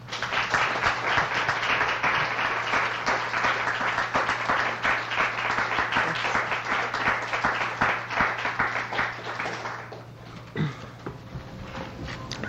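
An audience applauds to welcome author Amy Bloom, with dense, sustained clapping at an even loudness over a low steady hum that thins out near the end.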